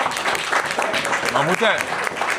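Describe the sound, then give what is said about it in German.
Applause from an audience, a moderate steady crackle of clapping with a voice speaking over it for about two and a half seconds. “Bitte an der Stelle nochmal großen Applaus für die Försterklause und für den Kalle.”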